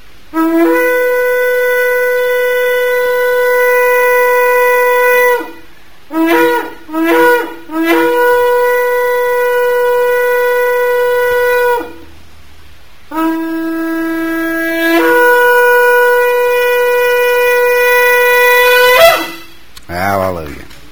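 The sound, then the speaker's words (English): A shofar blown in a religious service: loud, buzzy, horn-like tones. Long sustained blasts alternate with a run of short broken notes, and the sequence ends with an upward-sliding blast. “who has sanctified us with his commandments and has commanded us to hear the sound of the shofar.”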